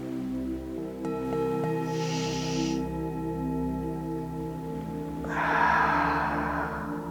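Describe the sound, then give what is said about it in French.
Slow, deep breathing from a guided relaxation exercise: a drawn-out inhale, then a longer, louder exhale, both soft and airy over steady, sustained background music. “vous allez prendre une longue inspiration et expirez lentement, le plus lentement possible.”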